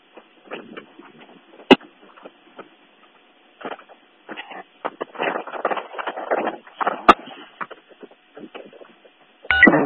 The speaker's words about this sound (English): Someone's trying to come over. It's all garbled. Sounds like an open key.